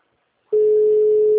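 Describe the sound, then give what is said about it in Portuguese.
A telephone call tone while ringing someone: after a brief silence, a loud, steady, single-pitched electronic tone begins and holds without a break to the end. “Fala pra ele assim, estou ligando pra ele atender.”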